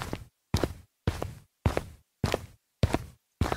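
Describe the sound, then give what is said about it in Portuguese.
Footsteps of people setting off to walk together: seven evenly spaced, crisp steps, each a short scuffing burst with a quick decay, in a steady unhurried rhythm with no talking. “Depois, vamos fechar a porta da nossa casa. E agora, nós vamos começar a caminhar todos juntos.”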